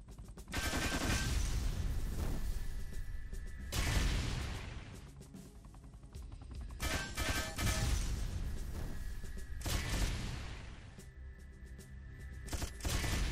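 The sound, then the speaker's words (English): Machine gun fire in a video game rattles out in long, rapid bursts, several loud stretches of continuous shooting separated by brief dips. “I'm trying to do as much of this as I can with the machine gun”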